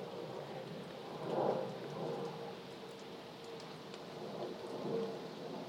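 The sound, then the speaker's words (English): Steady rain falls outdoors on a windy day, with water dripping off the trees. It makes a continuous soft hiss that swells slightly near the start and again near the end. “It is raining still, I think. I think I must have just got on a dry interlude when I walked out the door. But it's not raining like it was.”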